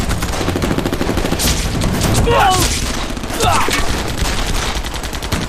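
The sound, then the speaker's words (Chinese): Enemy artillery fire hits troops near Pingliang: a dense, continuous barrage of sharp, rapid blasts and bangs, loud throughout, with a voice briefly shouting through the din in the middle. “我军在平凉这边遭受敌军炮火的袭击”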